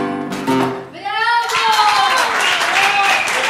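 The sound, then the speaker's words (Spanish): Audience applause in a live recording of a sung song. Dense, steady clapping swells in over the final held notes of voice and music, then carries on loudly. “Sí, era una versión en vivo, ahí se escuchan los aplausos.”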